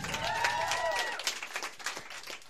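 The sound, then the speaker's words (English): Audience applause as performers are introduced at a live event: a dense, steady patter of clapping, with a loud voice rising above it in the first second. “By a round of applause, Uncle Yo!”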